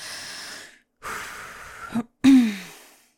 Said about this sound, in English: Ugh, don't breathe like that near me.